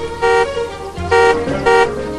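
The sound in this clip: A station wagon's horn honks three short, even toots in a quick series, each bright and steady in pitch, with no voices.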